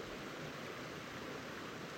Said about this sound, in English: filter out some of this water from these streams that are going by me